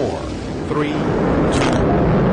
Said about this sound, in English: The three main engines light. That's when the solid rocket boosters ignite. Main engine ignition.